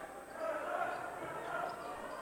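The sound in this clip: Basketball dribbled on the court during a college men's basketball game, Westminster with the ball, giving faint thuds beneath a commentator's steady talk and crowd noise.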